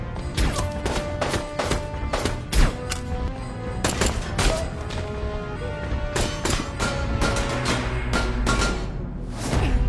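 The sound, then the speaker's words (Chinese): A gunfight from the film Anna: dense bursts of gunfire with many sharp shots and thuds in rapid succession throughout. “原计划由大门直接由米勒探员接走的，现在只能从下水道逃走啊！又是一番枪战。”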